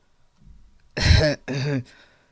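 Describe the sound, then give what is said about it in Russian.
Someone clears their throat in two short, voiced, rasping bursts. The first burst is slightly longer, and a faint breath comes before them. “Наконец, немного оправившись от потрясения, Эрн откашлялся и сказал:”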